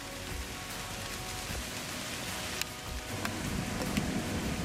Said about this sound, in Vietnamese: Trời đang mưa các bạn nha.